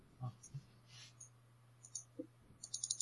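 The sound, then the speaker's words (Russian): White dice are thrown during a tabletop role-playing game session, making a faint, quick clatter of several sharp clicks on a table near the end, after a few soft knocks earlier over a low steady hum. “Кидайте белые фишки, белые кубики.”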